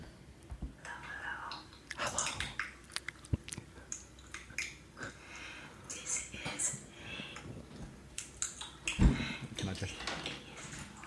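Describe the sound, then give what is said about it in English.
Chewing from an ASMR video of someone eating: soft wet clicks and crunches scattered irregularly under quiet whispering. “Oh, who wants ASMR of someone eating?”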